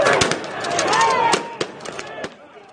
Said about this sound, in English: We're trapped. They're shooting pepper balls at us. They've thrown out tear gas, flashbangs.